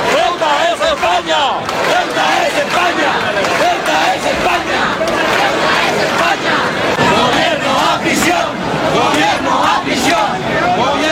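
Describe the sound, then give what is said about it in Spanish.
Loud, sustained roar from a crowd of about 7,500 people rallying in support of Ceuta in Plaza de Valls, Elche, with shouting voices merging into one dense, unbroken wall of noise. “Ahí lo escuchan alrededor de 7.500 personas. Según datos de la policía local, se concentraban ayer en la Plaza de Valls de Elche en apoyo a Ceuta”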